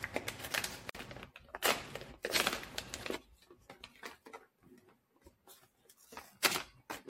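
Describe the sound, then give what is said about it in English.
Packing tape is peeled off a package holding a newly arrived book, producing several rasping, tearing bursts of varying length separated by quieter rustling, fairly faint overall. “just open it up enough I can just peel that tape off there. Peel that tape.”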